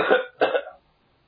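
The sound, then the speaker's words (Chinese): A man gives a light cough: two short, soft bursts in quick succession, then silence. “假山后面转出一个人，先轻轻的咳嗽一声”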